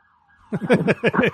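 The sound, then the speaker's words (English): A siren sound effect wails in a loud, repeating series of warbling rises and falls after a brief thin tone at the start. “There's a siren, at least one, on every show. There it goes.”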